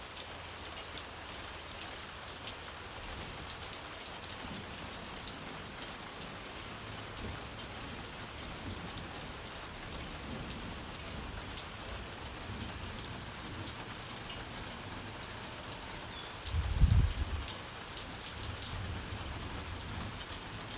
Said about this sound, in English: We have the rain hitting some metal chairs in the backyard on the concrete slab. We have it hitting some wooden boards above me with the lean-to, the temporary lean-to.